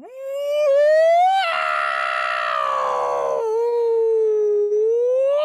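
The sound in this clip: A voice imitates a griffin's cry during a fantasy role-play scene: one long, loud howling call that climbs sharply, holds a strained, wavering tone, drops lower and then slowly rises again, with nothing else heard.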